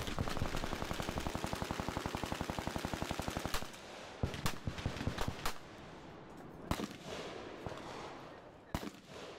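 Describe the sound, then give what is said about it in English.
Machine-gun fire in rapid, dense bursts fills the first few seconds, followed by scattered loud, sharp blasts of exploding grenades over a lower rumbling background. “Then came a few quick bursts of machine gun fire and exploding grenades.”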